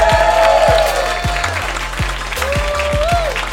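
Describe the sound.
Steady audience applause for a comedian arriving on stage, a dense continuous clatter of clapping hands with a voice over it.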